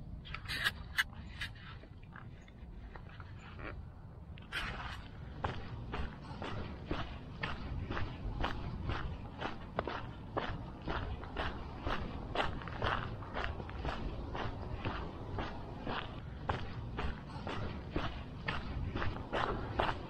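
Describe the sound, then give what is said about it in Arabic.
Footsteps of a person walking at night form many even, regular footfalls that keep a steady pace throughout. “جمعوا الخطوات الاخوان، جمعوا الخطوات. راه ديك اللعبة ديال 10,000 خطوة راه حقيقية.”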